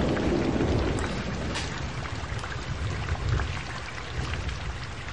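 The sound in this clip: Rain falls steadily with thunder, a dense, continuous hiss over a low rumble that stays loud throughout, with no voices.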